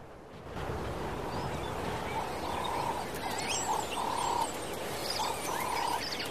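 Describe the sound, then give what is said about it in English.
Cheetah cubs giving bird-like chirrups to keep in touch as they move through acacia woodland: a few repeated short, mid-pitched chirping calls over a steady hiss, with faint higher twittering scattered above. “As they move, the young cats stay in touch using bird-like chirrups.”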